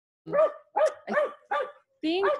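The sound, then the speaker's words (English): A pet dog barks in excitement at squirrels: five loud, sharp barks in quick succession, with a brief pause before the last one. “my dog is barking. That's okay. There are squirrels up here, man. He wants them.”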